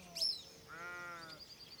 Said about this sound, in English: Her rhythmic vibrations are joined by the bleating of the cows.